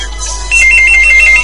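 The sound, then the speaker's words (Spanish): A telephone rings with an electronic ringtone: a loud, high, beeping pattern repeats in quick pulses over a low steady hum, starting partway in and continuing to the end. “Teléfono.”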